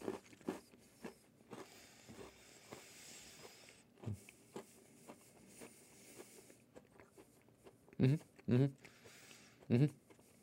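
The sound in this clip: Biting and chewing an Oreo snack packed with Oreo cream and cookie bits during a taste test: soft chewing and talk, then a few loud, sharp crunches near the end.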